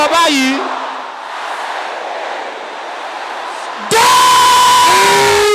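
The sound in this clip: A church audience shouting together in prayer, a dense, sustained roar of many voices after a brief lone voice, then surging abruptly louder near the end.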